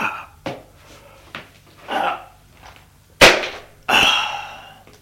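A single sharp gunshot bang as someone aims and fires at a man running toward an exit, a loud abrupt crack amid quieter clicks and a brief cry-like burst soon after.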